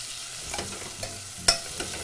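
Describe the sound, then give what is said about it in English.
Spanish onion sweating with kosher salt in a pan while being gently stirred: a soft, steady sizzle broken by a few light scraping clicks from the stirring. “I'm going to add just a little bit of kosher salt to the onion. Again, that helps sweat the onion. So we're just going to stir this in nice and gently.”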